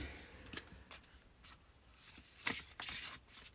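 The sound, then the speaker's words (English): Oracle cards being shuffled and one drawn: soft papery riffles and slides come in a series of faint bursts, growing a little louder and denser toward the end. “Let's pull an oracle card for you.”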